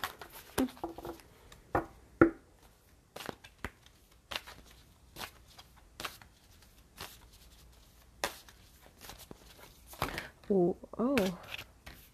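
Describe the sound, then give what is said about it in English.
Angels and Ancestors oracle card deck being shuffled, with cards spilling out: scattered soft, papery clicks and flicks that come sporadically and faintly, with brief bursts of a voice in between and near the end. “When too many cards come out like that, that's more of a shuffling fumble than anything else.”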